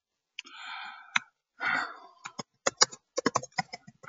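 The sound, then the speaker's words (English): Key clicks from typing on a Finnish computer keyboard, a quick, irregular run of many sharp taps that follows two breathy sighs. “this Finnish keyboard is driving me crazy”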